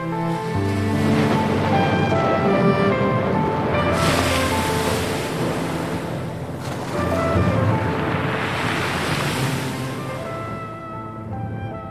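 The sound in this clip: Howling wind and rushing storm noise from a wild, stormy night with wind and rain: a loud, steady roar that swells and surges like crashing surf, rising again around the middle and toward the end.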